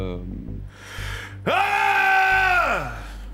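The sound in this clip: A man lets out a single loud, sustained roar lasting about a second, holding a steady pitch before it drops away at the end. Brief breathy vocal sounds come just before it, and a low hum runs underneath.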